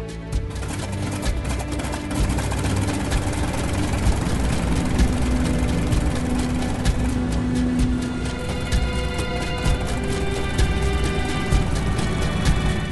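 A crop duster plane's propeller engine drones steadily as it taxis toward the runway, a loud, continuous low rumble with a buzzing harmonic whine and no marked change in pitch.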